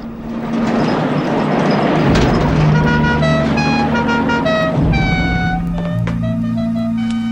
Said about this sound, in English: The sun is lowering as Grandpa drives away.